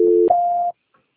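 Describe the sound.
Telephone transfer tone as a call is passed on: a brief low dual tone steps up to a single higher steady tone. It lasts well under a second, alone, followed by a tiny faint blip.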